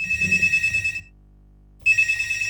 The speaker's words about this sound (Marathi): Sir, दरम्यानच्या काळात आपल्याला एक कॉल येतोय, तो कॉल आपण घेऊयात.